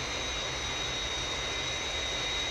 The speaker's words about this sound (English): On glide path, rate of descent 500 feet a minute. Aircraft on glide path. 3 miles to threshold.